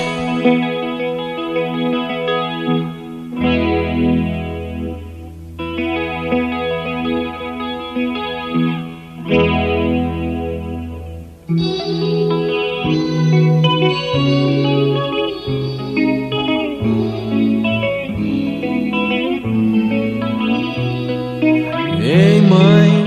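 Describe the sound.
A rock song plays on the radio, carried by loud electric guitar tones thick with chorus and distortion effects. The sustained chords change every few seconds, with denser, busier playing in the second half.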